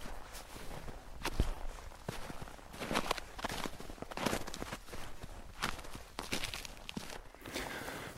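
Footsteps crunch through snow on a mountain climb at 1100 metres in minus four degrees, between Bosnia and the Croatian border. Many irregular, soft steps carry on steadily and fairly faintly throughout.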